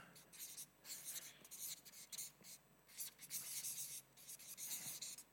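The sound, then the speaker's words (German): Faint, soft scratching strokes of a word being written by hand come in several bursts of rubbing friction separated by short pauses, with no talk over them. “Und dann schreibe ich da noch Fackeln.”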